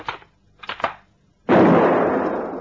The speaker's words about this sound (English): Look, I think I've got this rifle to work all right now. Watch this.